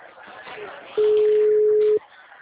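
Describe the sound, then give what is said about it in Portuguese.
Ringback tone of an outgoing phone call to a client: one steady, mid-pitched electronic tone lasting about a second, loud and even, cutting in over a murmur of background talk and stopping abruptly. “É do cliente, tá chamando.”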